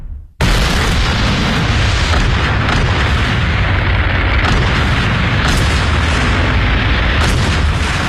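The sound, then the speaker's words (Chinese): Heavy armor-piercing artillery fire erupts in a World War II tank battle between German Tiger tanks and Soviet forces, a dense, unbroken roar of booms and blasts that starts abruptly after a brief quiet moment and stays loud throughout. “德军以虎式坦克率先开路，迅速突破苏军防线，但是很快就遭到苏军猛烈的穿甲炮火和无数坦克的阻击。”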